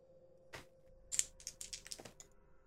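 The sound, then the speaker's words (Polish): A pencil scratches across paper as someone tries to draw a shape. Several short, faint, scratchy strokes come in uneven bursts, with quiet gaps between them. “Widzisz, zaczął coś rysować, ale nie ma to żadnego kształtu.”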